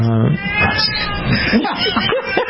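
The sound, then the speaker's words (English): A deaf cat meows very loudly in a few drawn-out, wavering calls, while people talk alongside. “I think your cat needs attention. Oh, my goodness. That is the loudest cat.”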